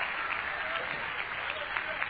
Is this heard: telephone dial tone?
no